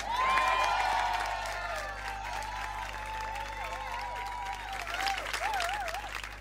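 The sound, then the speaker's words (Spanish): Audience applause at a literature gathering, welcoming a guest: a steady bed of clapping, with sustained wavering tones riding above it throughout. “Pido un aplauso muy fuerte”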